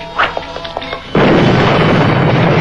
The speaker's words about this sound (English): Bat grenade will stop him.